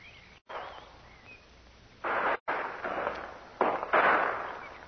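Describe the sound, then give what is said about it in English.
Gunshots from one man firing from a hillside ridge: a few sharp, noisy cracks at irregular intervals, each with a rough, decaying tail over a thin, band-limited hiss. “it's only one man. You can tell by the shots.”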